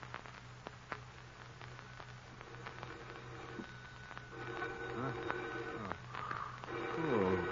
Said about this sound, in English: Phone. Who could be calling at this hour? Now, where's that phone?